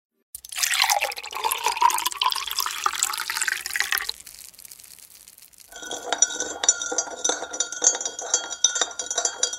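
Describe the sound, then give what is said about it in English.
A drink of water and flavoring powder is mixed with a stirring stick: a splashy, watery stretch comes first, then after a short lull a run of many quick, bright tinkling clinks against glass. “An 11-year-old boy named Frank Epperson uses a stirring stick to mix a drink with water and a flavoring powder.”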